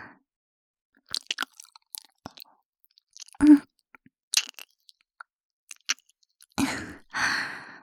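An earlobe is bitten and nibbled in soft, wet mouth clicks and small crunching nips. They come in scattered, irregular bursts, with a few sighing breaths in between, and are mostly quiet and close.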